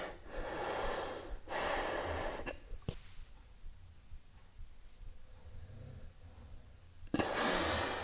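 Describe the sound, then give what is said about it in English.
Deep, forceful exhales while hollowing the belly in a stomach vacuum exercise: a few loud, breathy rushes of air, two close together at the start and another after a long, quiet stretch. “Vacuum, stomach vacuum. So exhale. And hollow the belly as you exhale.”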